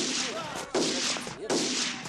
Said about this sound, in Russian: выглядывает из окна салуна, стреляет в воздух.